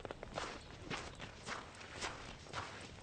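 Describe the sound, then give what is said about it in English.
Footsteps of someone walking away, a faint, steady series of soft, evenly spaced steps with no voices. “Don't walk away from me”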